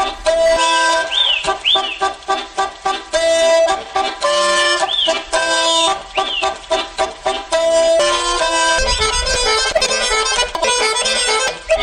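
A chicken polka played on a diatonic button accordion, its melody full of cackling hen-like figures that mimic clucking birds over a steady, bouncing pumped rhythm, loud and continuous without voices.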